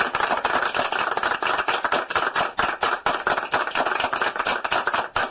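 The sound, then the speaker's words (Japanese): Applause sound effect triggered from a sampler: rapid, evenly spaced claps forming a steady, uniform stream with constant loudness. “音をお届けするやつなんですが、これも、新しく登場いたしまして、例えば皆さんにありがとうの感謝の気持ちを込めて拍手を、”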